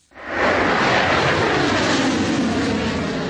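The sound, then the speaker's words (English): A missile launched by Ukrainian air defence, a sudden loud rushing roar that bursts in abruptly, then holds steady and eases slightly toward the end, with no voices. “A missile shoots into the sky, leaving a long white tail behind.”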